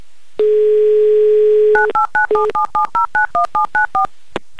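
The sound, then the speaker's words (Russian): A steady, loud telephone dial tone holds for over a second, then a telephone number is dialed as a quick, even run of many short touch-tone beeps at varied pitches, ending in a faint click. “Набираю ваш номер.”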